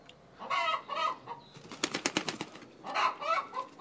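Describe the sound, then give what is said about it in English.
A hen cackling while laying an egg gives loud, harsh squawking calls in two bursts. Between them comes a rapid fluttering run like flapping wings. “This is the sound of a hen laying.”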